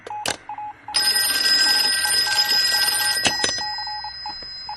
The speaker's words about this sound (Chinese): 局长，督办电话。